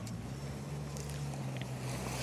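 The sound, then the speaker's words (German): A steady low engine drone from a lifeguard rescue boat moving on the water at Schönberg, mixed with a constant wash of water and wind noise, faint and unbroken throughout. “Jo, und wir sind auf dem Boot der DLRG Schönberg.”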